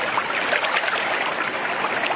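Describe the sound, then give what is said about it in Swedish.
River water streaming past with a strong current that raises white bubbles on the surface, heard as a continuous, even rushing hiss with no voices over it. “En ganska bra drag i vattnet här. Det kommer med vita bubblor på ytan när det strömmar fram.”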